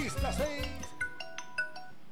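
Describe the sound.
A few short electronic tones of an outgoing phone call's ringback signal sound at a steady spacing after a brief stretch of talk at the start.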